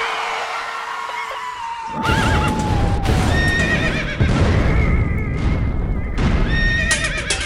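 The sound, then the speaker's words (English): Horses on a road neigh loudly with shrill, wavering whinnies, several in succession, over a steady clatter of clopping hooves. “You're losing control of the horses. Stay on the road!”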